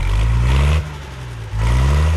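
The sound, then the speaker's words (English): A tractor engine runs with a steady, loud low rumble that drops to a quieter level partway through, then swells back up to full strength. “Let's get the tractor started up.”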